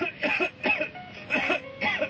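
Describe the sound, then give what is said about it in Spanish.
Repeated coughing, a few rough, voiced bursts that come in quick clusters over about two seconds, moderately loud and with no other speech. “Toma Seneguina y déjate de toser.”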